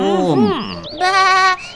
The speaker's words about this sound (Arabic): وأنت أيضا أيها الحصان، ولا ننسى مساعدة صديقنا الخروف.